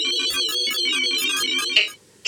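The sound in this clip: Phone ringtone sounding while calling a friend: a rhythmic run of bright, repeated electronic tones over a steady low pulse. It cuts off abruptly near the end, followed by a brief quiet gap.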